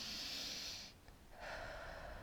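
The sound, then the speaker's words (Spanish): Soft, airy breath of a person inhaling during a breathing exercise, faint hissing air that dips briefly near the middle before a second breath continues to the end. “En este momento, inhala,”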